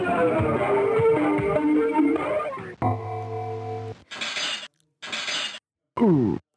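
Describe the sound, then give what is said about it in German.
Glass shattering effect from a 1992 computer game. A long, loud crash of breaking glass is followed by a steady electronic tone, then a few short, bright bursts. “Achtung, hier kommt jetzt Computerspiel-Sound aus den 90ern.”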